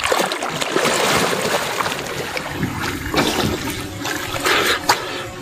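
Water splashes and churns as a firefighter steps down from the clear, shallow edge of a river into deeper water. A continuous rushing wash is broken by a few louder splashes.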